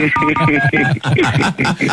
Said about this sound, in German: Wie gut, dass wir die Telefonnummer deiner Frau haben. Ja. Die rufen wir jetzt mal.